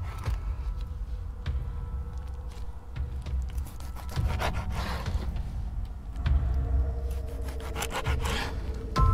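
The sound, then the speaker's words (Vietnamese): Knife cutting meat on a chopping board, heard as rhythmic rasping, saw-like strokes repeated many times, growing louder toward the end. “Tiếng bà ngoại cắt thịt, xoàn xoạt xoàn xoạt.”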